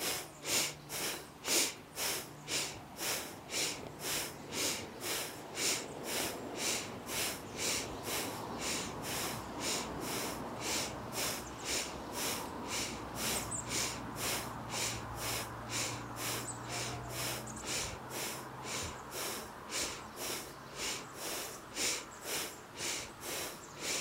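Rapid, rhythmic nasal breathing during a yoga exercise: many short, forceful breaths in a steady, even pulse throughout, with a low hum underneath.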